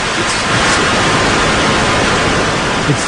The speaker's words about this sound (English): Is it static? Is it just static on television? That's yes. right. It's TV static